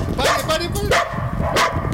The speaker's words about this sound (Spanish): ¡Pare! ¡Acá el perro! El perro, ok.